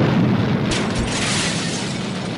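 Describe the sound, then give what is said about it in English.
A rocket carrying a fruitcake launches after a countdown, a loud, broad, continuous roar that holds steady and thins only slightly toward the end. “The fruitcake's in the rocket. Let me close the hatch and start the countdown.”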